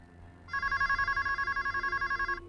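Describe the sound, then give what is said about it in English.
A telephone rings in a messy apartment with a bright electronic trill: a high, steady warbling tone that pulses rapidly for about two seconds, then cuts off. “A hand reaches out from underneath a blanket and answers the phone.”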